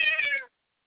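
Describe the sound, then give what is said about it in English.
A house cat gives a single clear, mid-pitched meow lasting about half a second, which cuts off abruptly into silence. “Bubby's meowed right when you said that. Bubby's was all,”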